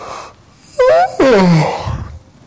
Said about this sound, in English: I knew I'd cause somebody to yawn.